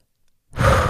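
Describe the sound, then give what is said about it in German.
A single short breath, a quick rush of air lasting under half a second that comes in abruptly after near silence and stays fairly loud to the end. “Ja, ich atme kurz.”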